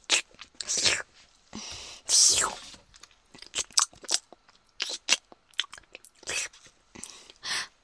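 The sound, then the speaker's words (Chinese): A mother bites and chews food her son has made, probably crunchy, in many irregular bursts of crunching and munching separated by short pauses. “你要不要吃一口？那妈妈都吃了。”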